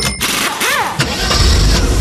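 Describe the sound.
A Volkswagen car engine starts with a short whining crank, then catches and runs on in a loud, steady mid-pitched hum.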